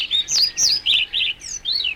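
European pied flycatcher calling: a rapid series of high, clear chirping notes with short gaps between them, with no other sounds.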